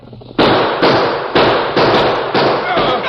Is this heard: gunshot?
yes